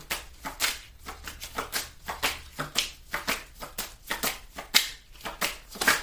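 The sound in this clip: Playing cards are dealt from a deck in a quick, steady run of many crisp flicks and snaps, each light slap spaced closely to the next, with no voices.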